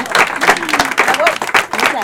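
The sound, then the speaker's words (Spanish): Audience applause at a presentation of an illustrated nature book given as a surprise gift: loud, uneven clapping from a crowd, mixed with voices speaking over it. “Bueno, un aplauso.”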